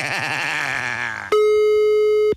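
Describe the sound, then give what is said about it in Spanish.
A telephone tone sounds while a call is being dialed: a steady, loud, even pitched tone of about one second that stops abruptly. Before it comes a wavering, harmonic-rich tonal sound. “Ahora vamos a marcarle. Nos tiene que contestar.”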